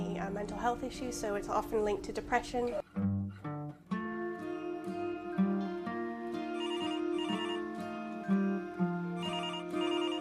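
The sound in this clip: A melodic electronic telephone ringtone, bright sustained notes following one another in a repeating tune for about ten seconds.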